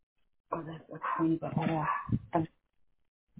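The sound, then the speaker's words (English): Dogs barking at home in a few short, overlapping bursts mixed with a person talking, then a stretch of quiet. “I have to take care of some barking dogs.”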